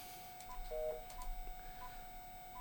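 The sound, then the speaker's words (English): Telephone keypad tones as a number is dialed: a few short, faint electronic beeps, one slightly longer, spaced unevenly over low background hiss. “let's see here. I'm trying to dial a number. We're going to see if I actually dial the right number. Let's see if we dial the right number.”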